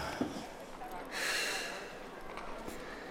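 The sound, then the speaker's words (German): A person leaning out of an open window takes a deep breath in, a single airy, hissing inhalation that swells and fades over about half a second, faint against a quiet background. “Lehn dich aus dem Fenster. Ja. Tief einatmen. Die Brust muss sich weiten.”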